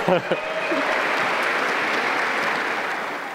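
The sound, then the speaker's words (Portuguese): Audience applause at a spiritist congress in Lisbon, welcoming a man as he arrives. A voice is heard briefly at the start, then dense, steady clapping from many hands holds at a fairly loud, even level to the end. “Palmas, que ele vem chegando à meta.”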